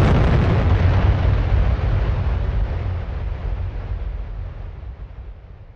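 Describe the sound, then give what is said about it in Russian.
A deafening explosion hits at once as a heavy, loud boom, then rolls into a long low rumble that fades steadily over several seconds, with no voices. “Внезапно до нас донесся удар, а затем взрыв, от которого попросту заложило уши.”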